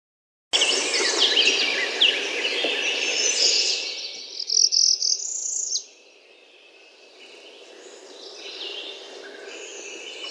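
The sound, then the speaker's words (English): White-throated sparrow song: clear whistled notes ring out over a busy, hissing chorus of other birds and insects. The whistles grow brighter partway through, then the chorus drops to a quieter bed. “White-throated sparrow.”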